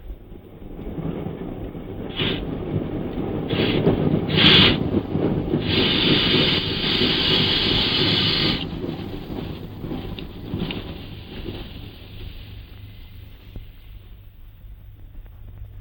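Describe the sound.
A metro train pulls into a station and stops. Its low rumble swells and then eases off, broken by a few short sharp hisses and one longer hiss midway. Afterwards the noise dies to a faint low hum.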